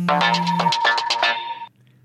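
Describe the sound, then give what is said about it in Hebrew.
The Deutsche Bahn audio logo jingle plays as a short, bright electronic melody of several quick notes over a low sustained tone. It stops abruptly and leaves near silence. “ככה נשמע בעצם האודיו לוגו שלו. רינגטון.”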